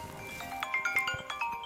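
Phone ringtone for an incoming call from an Israeli number: a faint electronic melody of short, repeating bright tones pulsing in a steady rhythm.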